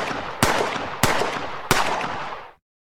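Three sharp gunshot bangs, evenly spaced, each loud and followed by a long decaying tail, with no voices, ending abruptly in silence.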